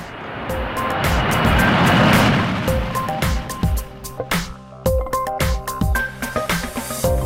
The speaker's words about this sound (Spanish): ¡Despegamos!